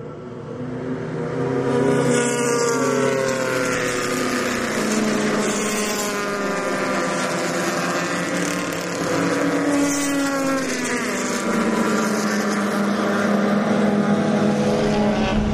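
Race cars roaring past the start-finish line at the green flag, a loud, continuous engine roar with several overlapping engine tones sweeping up and down in pitch as the pack passes.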